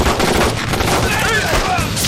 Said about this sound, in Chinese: 接上子弹，等他们靠近了再打，争取一枪毙掉一个。 是。 预备， 快，快，快， 打！